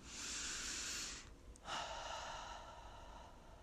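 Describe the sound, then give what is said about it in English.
A deep breath: faint, airy breathing in two soft stretches separated by a short pause, with no talking. “It's time to take a deep breath right now.”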